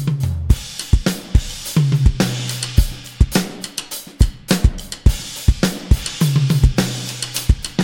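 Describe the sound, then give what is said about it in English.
Full drum kit playing a steady beat: punchy kick drum and sharp snare hits repeat in a regular rhythm under a constant bright cymbal wash, loud and with no talk. “So, have a really careful listen to this drum beat.”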